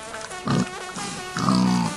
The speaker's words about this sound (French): Maman, il y a un sanglier qui me fonce dessus. Va-t'en, sanglier.